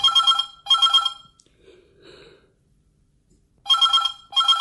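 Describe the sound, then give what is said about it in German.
A telephone rings loudly and harshly in paired electronic trills: two short bursts, a pause of about two seconds with only faint rustling, then two more bursts. “Das Telefon klingelte, laut und unfreundlich.”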